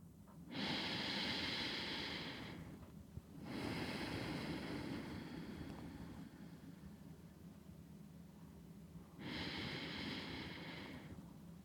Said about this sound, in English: Take deliberate, conscious breaths. Do it with me now.